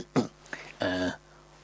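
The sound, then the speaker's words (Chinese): A man's voice clears its throat, acting out the sound with a short rough burst, a brief catch, then a longer voiced hum, all fairly faint. “阿斯哈清了清嗓子”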